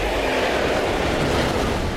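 A train running on rails makes a steady, loud rumbling roar with a faint rhythmic rattle, filling the full two seconds without a break and with no voices.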